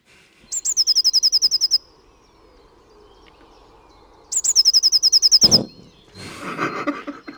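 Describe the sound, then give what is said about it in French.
A blue tit sings two bursts of high, rapid song separated by a quiet pause. Each burst opens with a couple of sharper notes, then runs into a fast, even trill of many repeated notes. “C'est le chant de la mésange bleue.”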